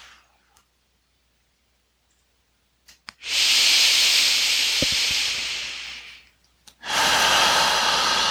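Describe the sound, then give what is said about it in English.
Slow exhaling breath during a relaxation exercise: a long, soft, airy hiss of about three seconds, a short pause, then another steady breath begins. “And exhaling.”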